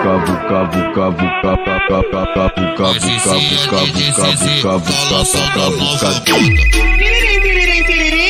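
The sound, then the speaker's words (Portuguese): A telephone ringtone tune plays as part of a song: a bright, rapidly repeating electronic melody, loud throughout, that ends in a sharp falling sweep and a steady buzzing tone. “Alguém ligou pra mim. Tiririm, tiririm, tiririm. Alguém ligou pra mim.”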